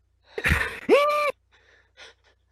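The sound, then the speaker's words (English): A person takes a sharp, audible gasping breath, then lets out a short voiced exhale, followed by a few faint breathy sounds, with no words spoken. “Take a breath.”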